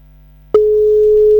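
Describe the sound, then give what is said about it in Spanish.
A phone line tone follows a dropped call. After a low electrical hum, a single steady, low-pitched tone starts abruptly and holds unbroken at a loud, constant level, with no voices. “Ah, ¿qué pasó? Se cortó, cayó la llamada.”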